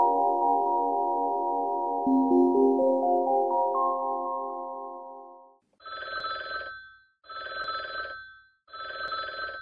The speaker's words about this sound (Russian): Звенел телефон.